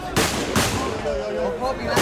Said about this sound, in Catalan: La policia s'ha vist obligada a disparar a l'aire per evitar aldarulls a les portes del centre d'acollida Loma Colmenar de Ceuta.